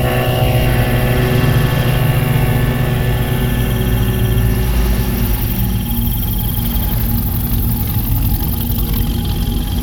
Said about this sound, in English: What's that sound? It's a boat. It's coming toward us.